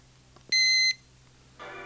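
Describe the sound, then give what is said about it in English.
A radio gives a single sharp, high electronic beep as it switches on or off, lasting under half a second over a low hum, then a lower buzzy tone starts near the end. “a single beep, the radio is on. A double beep, the radio is off.”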